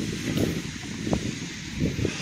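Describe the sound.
Wind blowing outdoors at night under a cloudy sky: a low, uneven rumble with soft rustling that swells in a few gusts and keeps going throughout, with no voices.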